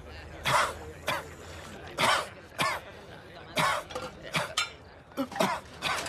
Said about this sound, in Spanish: Se le habrá ido por mal sitio. Que beba un poco de agua, ¿no? Se le pasará.